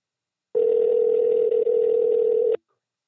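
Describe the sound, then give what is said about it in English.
Telephone dial tone sounding while a call is placed: one steady, even tone holding for about two seconds, with a brief dip midway, then cutting off abruptly into silence. “dial him up, and let's hear what he has to say about Green Lotus.”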